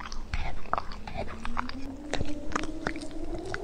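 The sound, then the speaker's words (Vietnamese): Meat is chewed in wet, smacking bites behind a broken stone tablet. Many irregular crunchy clicks and squelches come at an uneven rhythm over a faint low background. “từ đằng sau tấm bia vỡ đã vọng ra tiếng nhai thịt chóp chép.”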